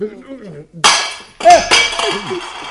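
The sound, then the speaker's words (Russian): A drinking glass of tea slips from someone's hand and shatters on the floor with a bright, crashing burst. A second clattering crash follows shortly after, and voices talk before and between the impacts. “Стакан удержать не может. Ничего страшного. Ничего страшного, друзья мои. Разбился стакан, невелика потеря.”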